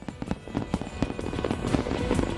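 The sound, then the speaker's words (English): A New Year fireworks show in Dubai bursts with many rapid, crackling pops and thuds in an irregular stream, fairly faint overall. “2025 has already arrived in many parts of the world, including Dubai, where there was a spectacular fireworks show.”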